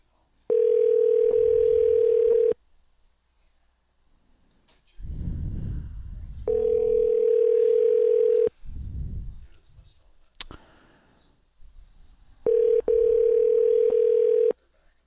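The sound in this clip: A telephone call rings out unanswered, three long, steady, mid-pitched ringback tones of about two seconds each, with a voice talking briefly in the gaps between them.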